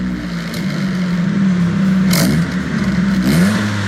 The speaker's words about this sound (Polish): Wsiadamy do samochodu i uruchamiamy silnik. Posłuchajcie uważnie, jak to brzmi, ten silnik oczywiście.